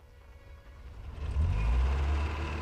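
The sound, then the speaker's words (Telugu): A cream-coloured car approaches, its low engine rumble growing noticeably louder halfway through and holding steady to the end. “అదిగో నీ car.”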